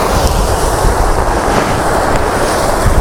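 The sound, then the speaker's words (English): Strong wind blows on an exposed hillside path, a loud, continuous low roar with gusty buffeting rising and falling throughout and no voices. “However, I am right back in the wind up here”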